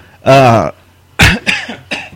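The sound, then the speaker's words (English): A few harsh, throaty coughs burst out in quick succession after a short voiced throat sound, loud and abrupt, with brief pauses between them. “excuse me, we need a cough button.”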